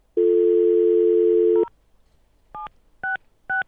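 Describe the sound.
Telephone tones sound while an international number is dialed: a steady, even dial tone holds for about a second and a half, then stops. After a pause, three short keypad beeps follow in quick succession.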